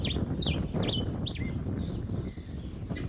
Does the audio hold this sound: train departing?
no